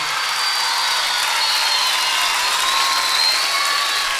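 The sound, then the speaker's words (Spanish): Applause from a live audience at a concert, a dense and steady wash of clapping that holds at an even, fairly loud level throughout with no break. “quiero fuerte el aplauso para él.”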